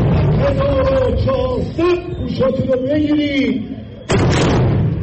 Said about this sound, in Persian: صدایی که در آغاز این گزارش شنیدید به بیش از یک هفته پیش برمیگردد. لحظه تحویل سال 1400 خورشیدی در مراسمی در اطراف برج آزادی تهران که با شلیک گلوله توپ از سوی نیروهای مسلح جمهوری اسلامی